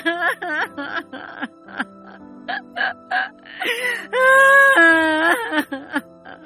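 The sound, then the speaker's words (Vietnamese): A woman weeping hard over her son's fate, with a string of short, quavering sobs and cries that build into one long, loud, sustained wail, followed by a few trailing sobs. “Bà Phán khóc dầm dề.”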